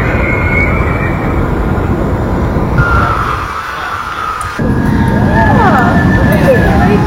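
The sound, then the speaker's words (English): Loud, steady rumbling roar from the Fast and Furious theme park ride, recorded by neighbors in Toluca Lake, dipping briefly partway through before surging back to full strength. “Since these rides have been happening, and we've talked about it, the noises are crazy, mm-hmm. non-withstandable. Here is some recordings from the neighbors in Toluca Lake of Fast and Furious, The Ride.”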